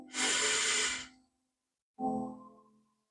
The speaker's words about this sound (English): Take another deep breath in